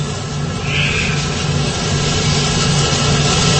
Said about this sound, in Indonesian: Yang menyala itu adalah mesin penggiling yang biasa menggiling bahan-bahan yang masih kasar menjadi halus.